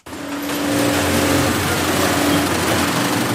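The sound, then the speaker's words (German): Steady mechanical whirring of a sewing machine stitching protective workwear. A loud, continuous hum with a constant tone runs unbroken from start to finish, with no voices. “So klingt es, wenn Arbeitsschutzkleidung genäht und hergestellt wird.”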